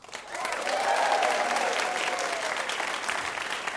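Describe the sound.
Audience applause greets two game show contestants at a live bar trivia show, rising quickly into a full, dense patter of clapping hands that holds steady to the end.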